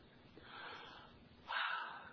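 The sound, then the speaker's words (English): A person breathes out in a faint, airy exhale. A softer breathy stretch comes first, then a slightly stronger rush of breath, with no voice alongside. “There's a breath.”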